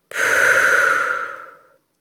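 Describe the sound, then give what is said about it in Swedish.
One deep breath, drawn in through the nose and let out through the mouth. It comes as a single long, airy, breathy sound that starts abruptly, then slowly softens and fades to silence after about a second and a half. “Ta så ett djupt andetag in genom näsan och ut genom munnen.”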